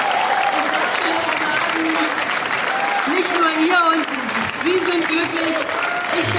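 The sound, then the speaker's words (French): Applause from a crowd greeting a speaker after an election result in Germany, dense steady clapping mixed with raised voices and cheering throughout. “Merci beaucoup pour vos applaudissements.”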